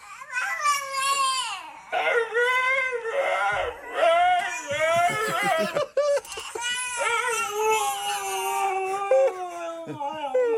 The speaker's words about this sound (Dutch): Hier hoor je dat die hond probeert die baby na te doen.